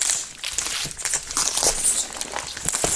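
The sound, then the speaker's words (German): Foil crinkles and crackles as a Kinder Surprise chocolate egg is unwrapped, a continuous busy rustling with many small crisp snaps throughout. “lass uns alle zusammen auspacken. Mach und mal das Ü-Ei öffnen. Jetzt kommt.”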